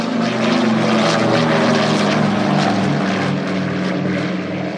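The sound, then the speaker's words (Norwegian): A Douglas DC-3 propeller airliner of Ethiopian Airlines from around 1950 drones loudly and steadily. Its piston engines and propellers give a continuous rumbling hum with a rich, buzzing harmonic texture. “rundt 1950 kjøpte det nystartede Ethiopian Airlines tre DC3-ere, og de hørtes slik ut.”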